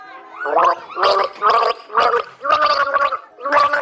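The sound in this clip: A person gargles the children's song Alle meine Entchen, turning each note into a bubbling, pitched voiced burst. Several gargled phrases follow one another in a steady melodic rhythm, fairly loud and clear.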